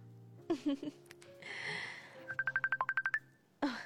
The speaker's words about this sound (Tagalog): Aba, nagtawag siya na yun ba? Sabton ko siya.